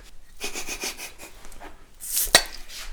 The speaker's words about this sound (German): Das sieht so armselig aus, wie du dein Bier öffnest.